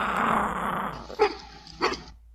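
Loud, rough growling from an animal chasing another creature, a noisy snarl followed by two short, sharp bursts.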